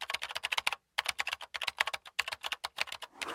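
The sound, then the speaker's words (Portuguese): Someone typing on a computer keyboard: rapid, crisp keystrokes in an uneven rhythm, heard alone, with one brief pause early on before the tapping resumes. “Será o som de alguém a escrever no teclado de um computador, alguém a bater com as mãos nas pernas ou alguém a tocar bateria? E a resposta correta é... alguém a escrever no teclado de um computador.”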